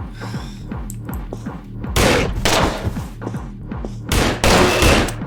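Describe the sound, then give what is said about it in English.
Gunfire in a video game: loud, dense bursts of shots, many in quick succession, swelling into heavier volleys in the second half, with thumping impacts mixed in. “Oh. I shot him!”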